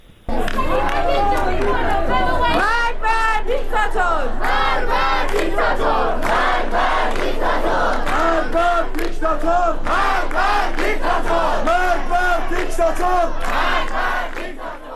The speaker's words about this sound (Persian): تحسن و اعتراض در دانشگاه هم ادامه داشته، یک صدا هست از دانشگاه کردستان، اون صدا رو هم بشنویم